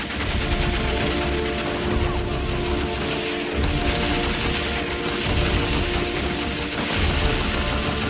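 Dense gunfire from a film battle scene: continuous machine-gun bursts and overlapping shots form a loud, unbroken barrage that runs from start to finish without a pause.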